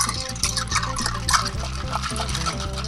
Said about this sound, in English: All right, so we've iced this sucker up now. Now we're going to give it a bit of a stir.